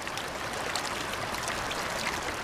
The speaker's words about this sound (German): Mit Wucht schieben sich die Fluten der jungen Kander durch das breite Geröllbett.